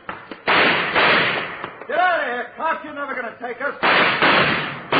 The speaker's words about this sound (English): Hold it up. Don't shoot anymore. I give up. I give up.